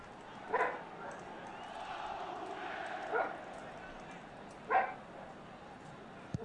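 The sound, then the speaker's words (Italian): Dogs barking behind a football match, three sharp barks spaced a few seconds apart over a steady background murmur. “a parte i cani che abbaiano”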